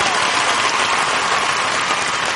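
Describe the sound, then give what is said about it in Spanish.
Steady applause from a concert audience for a live band, dense clapping with a hiss-like texture almost like rain, kept at a loud, even level with no clear breaks. “Ustedes no dejan de aplaudir y nosotros no dejamos de cantar hasta que les quiten lo que pagaron.”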